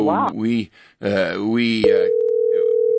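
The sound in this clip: Telephone line tone on a phone-in call: a steady, mid-pitched electronic hum that cuts in abruptly after a stretch of voiced sound and holds unchanged for over a second.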